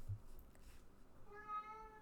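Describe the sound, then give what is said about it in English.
A house cat gives a single faint, drawn-out meow near the end, over a quiet, low background with no talk. “Sorry, that was our cat.”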